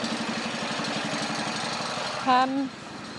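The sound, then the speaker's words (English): Low, steady rumble of a big lorry's engine as it tries to reverse on a road, idling evenly throughout. “There's a big lorry trying to reverse, blocking the road now, and he's just, thank you, just driven his own side mirror off.”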